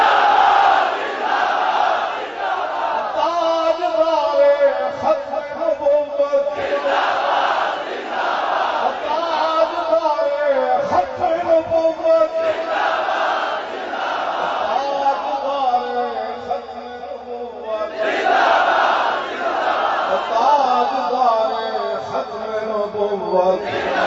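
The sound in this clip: A crowd at a rally chants religious and political slogans, including one about the lion and Tajdar-e-Khatm-e-Nabuwat. A voice leads each slogan and the crowd roars its answer, repeating in loud call-and-response bursts.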